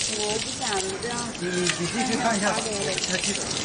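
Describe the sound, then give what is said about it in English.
Water sprays from a hose as a zookeeper cools a hippo at a zoo in Guangxi during a heat wave, a steady rushing hiss with splashing throughout and faint voices underneath. “That's the sound of a zookeeper spraying a hippo with water to keep it cool in the Guangxi region.”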